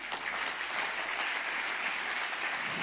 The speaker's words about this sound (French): Alléluia, on peut acclamer le Seigneur.